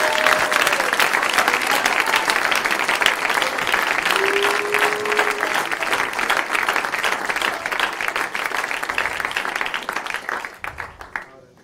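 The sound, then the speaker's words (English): Congregation applause fills nearly the whole stretch, a dense, steady wash of many hands clapping in praise at a church service. It holds evenly loud, with voices faintly mixed in, then thins out and drops away in the last second. “give Jesus a hand clap of praise this morning.”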